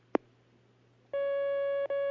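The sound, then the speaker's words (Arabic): A telephone line connects a caller with a single faint click, then a steady single-pitched line tone. The tone holds, breaks off briefly, and resumes, with no voices. “معنا مكالمة الآن على الخط.”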